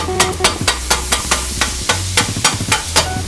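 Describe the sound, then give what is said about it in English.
A cheesesteak cooking, with sharp, rhythmic scraping clicks of a utensil repeating quickly and evenly over a low, constant sizzle. “Right now I'm making a cheese steak.”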